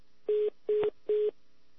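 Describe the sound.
Telephone line tones play as a call is switched through to a caller: three short, evenly spaced beeps at a steady, mid pitch, each with a buzzy edge, separated by brief gaps over a faint steady hum.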